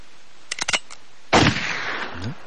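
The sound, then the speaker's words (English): A gunshot sound effect: a few quick sharp clicks, then a single loud blast that rings out and decays into a lingering rumble. “That would be a thank you, Jesus, and a gunshot.”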